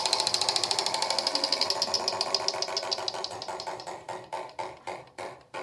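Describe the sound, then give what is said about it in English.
A prize wheel spun for a team in a quiz game gives a rapid run of ratcheting clicks that gradually slow and spread apart as the wheel loses speed, fairly loud and heard alone. “would you please spin the wheel for Team Marks,”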